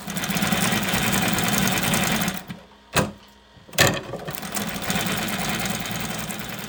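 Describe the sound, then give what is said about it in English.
A bicycle-powered sewing machine produces a fast, steady mechanical whirr. It stops briefly, with two sharp knocks during the gap, then resumes at the same even pace. “powers his sewing machines by attaching them to bicycles.”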